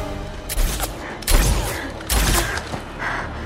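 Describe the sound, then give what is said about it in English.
Gunshots from soldiers firing in an alley ring out as a few sharp, loud bursts over a steady, noisy background. “Two more soldiers appear on the other side of the alley. Triss turns to face the new threat. She shoots one of the soldiers”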